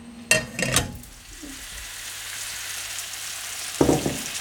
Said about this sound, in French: Donc là du coup je vais les mettre 2 minutes de chaque côté dans l'huile.